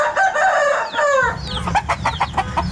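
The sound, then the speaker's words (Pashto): Hens and roosters in a run-down old courtyard where about ten of them wander, clucking and crowing. Repeated loud calls are heard over a steady background. “تر لسو پورې چرګې چرګان پکې ګرځي.”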